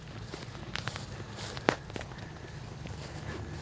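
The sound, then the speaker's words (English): Footsteps walking along a wall, several light scuffing steps with one sharper footfall, set against steady outdoor noise. “Oh wow, we gotta walk right down this wall.”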